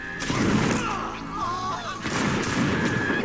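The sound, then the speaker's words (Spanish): Dense, sustained gunfire from soldiers defending the foreign legation quarter against attackers during the 1900 siege in Beijing, with rough overlapping shots forming a loud, continuous roar throughout. “Los soldados extranjeros se defienden como pueden. Son 300 disparando contra miles.”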